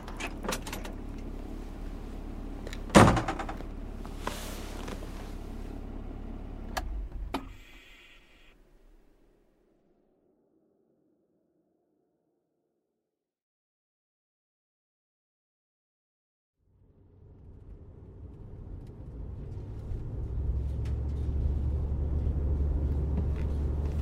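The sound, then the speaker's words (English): A car drives up to a colony's gate. Clatter and a sharp knock come early, then a long silent gap, then a low, steady engine and road rumble that grows louder. “I'm driving up to the colony's gate right now.”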